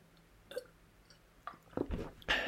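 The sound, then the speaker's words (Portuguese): A person sipping a little water, giving soft wet mouth and swallowing sounds in a few short bursts, with the last ones louder and closer together. “Estava só aqui a beber um bocadinho de aguinha. Que isto deixa-me cansado da garganta.”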